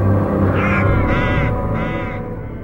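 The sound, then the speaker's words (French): Crows caw around an abandoned manor, three loud, harsh, drawn-out calls in a row over a dense low background drone that fades slightly toward the end. “Les courants d'air et les corbeaux y ont élu domicile.”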